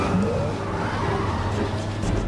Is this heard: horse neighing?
no